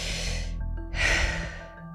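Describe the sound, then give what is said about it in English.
A deep breath is drawn in as an airy rush over a low, steady tonal bed, and a second, stronger breath sound follows before fading. “Try it with me. Take a deep breath right now.”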